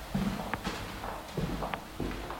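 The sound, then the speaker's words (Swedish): Footsteps walking across a hotel toward its old, small elevator: a few soft, evenly paced steps, quiet and alone. “Han går de 26 stegen bort mot hotellets hiss, som han alltid gör.”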